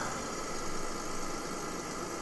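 A truck engine in a driving video game, a steady, unbroken mid-pitched drone with light vibration, holding the same level throughout with no talking over it.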